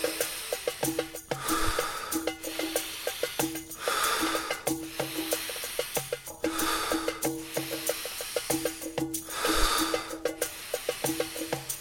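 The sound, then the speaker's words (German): Rapid, forceful breathing during a breathing exercise, with repeated rhythmic bursts of airy huffing over a steady pulsing sound underneath. “Und jetzt geh nochmal richtig rein für die letzte Minute. Atme jetzt so schnell und so kräftig, wie du nur kannst. Gib 100%.”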